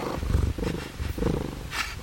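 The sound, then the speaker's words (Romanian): A cat purring drowsily, a low, steady, rhythmic rumble that pulses in a few soft cycles, heard alone without talk. “Pisica l-a privit somnoroasă o clipă, apoi a continuat să toarcă nepăsătoare.”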